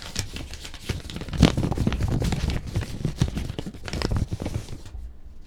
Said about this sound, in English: Let me just open the envelope.